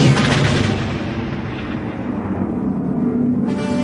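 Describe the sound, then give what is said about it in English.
A giant battle station's superweapon firing: a loud, sustained roaring blast that fills the whole clip. Its hissing top thins out midway, then surges back near the end. “That blast came from the Death Star. That thing's operational.”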